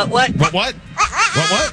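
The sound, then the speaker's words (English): Goat bleating, two wavering, nasal cries in quick succession, loud and close together with a brief pause between them. “Poor goat.”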